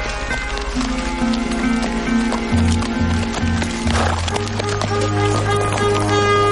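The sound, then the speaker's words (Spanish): Hooves clip-clop as a duke rides a horse with his entourage outside a castle in a film scene; steady, brisk hoofbeats run throughout. “Fuera del castillo y bajo un brillante sol, el duque monta a caballo junto a su séquito.”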